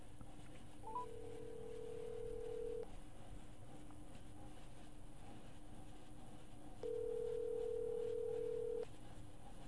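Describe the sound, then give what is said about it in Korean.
A telephone call being connected: two long, steady, low ringback tones, each about two seconds, separated by a longer silent gap, with a faint short blip before the first, and no voices. “최세영 의원님이 지금 주님의 영광교회에서 현장 상황을 다시 한번 설명해 주신다고 해서 연결 한번 해보겠습니다.”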